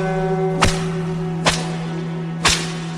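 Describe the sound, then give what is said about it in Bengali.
Whip lashes in a flogging: three sharp, loud cracks spaced roughly a second apart, each a brief snap over a steady low electrical hum. “অবশেষে 40 ঘা চাবুককে চাঁদ রানীকে প্রায় অজ্ঞান অবস্থায় ছেড়ে দেওয়া হয়।”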